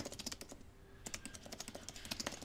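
Someone types quickly on a computer keyboard, making many faint, crisp key clicks in bursts with a brief pause near the middle.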